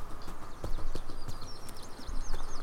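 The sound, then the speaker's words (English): Hooves clip-clop in a quick, uneven run for a creature at full gallop. The beats are sharp and moderately loud, with thin birdsong chirping above throughout. “And I suppose we could just use that. She's going to be going at a full gallop.”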